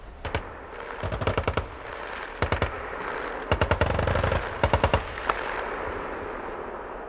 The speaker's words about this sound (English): You will fire all the weapons that you have trained in. That is the 84 anti-tank, the 60mm mortar, the GPMG SF that you can hear in the background.